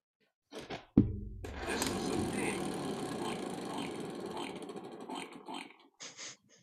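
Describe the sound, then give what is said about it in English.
Clicking of a spinning prize wheel: a sharp thunk starts a steady, dense rattle of clicks that runs for several seconds before stopping, followed by a brief final burst. “So let us spin the Wheel of Impressions.”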